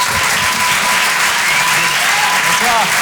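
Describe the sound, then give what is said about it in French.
Audience applause fills a comedy club, a dense, steady wash of clapping that stays loud and even from start to end, with crowd voices mixed into it. “Je vous demande de l'encourager. Faites du bruit, s'il vous plaît, pour Boris Cholin.”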